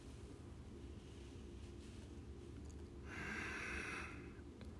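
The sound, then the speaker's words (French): A soft exhale through the nose during a paradoxical breathing exercise, with the mouth closed. It is a single airy whoosh of about a second over a faint, steady background hiss. “Expire par le nez.”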